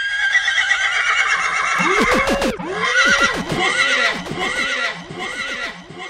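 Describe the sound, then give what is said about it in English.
A horse neighing sound effect: a loud whinny with repeated rising-and-falling pitch arcs, together with clip-clopping hooves. “That's my sound horse, you know. That's how warped my mind is, you know. Sound horse, you know.”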